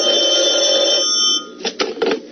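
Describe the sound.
A telephone rings in a sustained, bright trill for over a second, then stops, followed by a few short, soft knocks and rustles.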